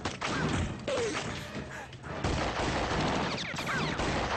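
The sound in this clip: Gunfire in a video game: loud bursts of rapid shots with heavy thuds and crashes, a dense, nearly continuous barrage that dips briefly before resuming.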